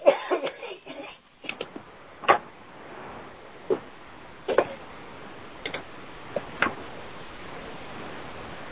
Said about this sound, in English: I just had to mute you because the coughing there was getting out of hand.